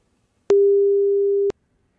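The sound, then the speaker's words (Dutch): A telephone call being placed to a mobile number produces a single steady mid-pitched tone lasting about one second, opened and closed by brief clicks. Silence surrounds it, and no voices are heard. “Ik ga er even bellen.”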